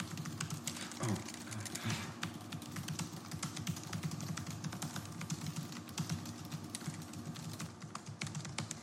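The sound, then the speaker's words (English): Fast typing on a computer keyboard during a typing race: a dense, continuous clatter of quick key presses, fairly faint and steady, without talk. “We're going to play Type Racer for a bit. The winner of Type Racer gets to choose if he would like to go first or second.”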